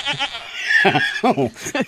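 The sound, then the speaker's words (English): Goat bleating in a few nasal, quavering calls in quick succession, loud and tremulous, with short gaps between them. “No, but do you have a goat?”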